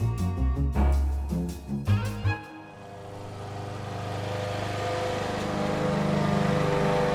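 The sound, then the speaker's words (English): Grass being mowed in a summer garden: a motor drone that settles into a steady, even, low hum after a short stretch of choppy, pulsing tones. “I love the sounds of a summer garden. Grass neatly mowed, hedges trimmed, the roses pruned.”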